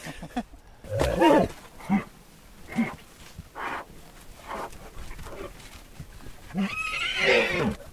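Konik wild ponies on open grassland neigh and whinny in a series of uneven, harsh, rising-and-falling calls. The calls come loud and clear, separated by short quiet gaps.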